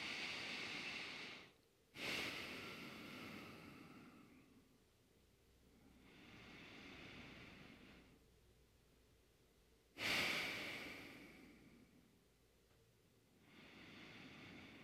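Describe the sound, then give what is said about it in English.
Deep, slow breathing during a yoga flow class, very soft. Long drawn inhales and exhales swell and fade, and two sharper, quicker intakes of breath stand out among them. “So just let's appreciate it for a moment with some deep breath.”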